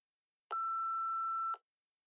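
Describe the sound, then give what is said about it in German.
A daycare centre's answering machine sounds its beep tone: a single steady, mid-high electronic tone that lasts about one second and is clean and loud, with silence before and after. “Bitte hinterlassen Sie eine Nachricht und sprechen Sie nach dem Signalton.”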